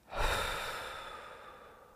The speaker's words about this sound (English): One more deep breath in together. And pause. And let it all go.